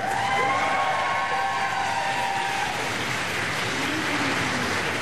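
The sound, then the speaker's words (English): Cheering from Foreign Office staff as Zelensky arrives at 10 Downing Street: a steady, unbroken wash of crowd noise that stays at an even level throughout. “Mr. Zelensky was cheered by staff from the Foreign Office as he arrived at 10 Downing Street.”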